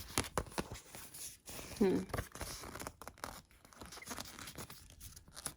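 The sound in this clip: Wrapping paper handled while a gift is wrapped, with soft crinkling, rustling and brief tearing sounds in irregular bursts, quiet and close, with faint speech at times.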